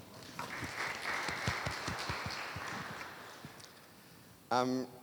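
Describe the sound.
Audience applause welcoming a speaker to the stage at a talk: a steady, dense patter of clapping that holds for several seconds, with a brief voice sounding at the end.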